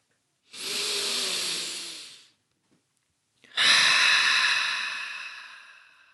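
A deep, slow restorative breath: a long, airy inhale of about two seconds, a short pause, then a fuller, hissing exhale that fades away gradually over nearly three seconds.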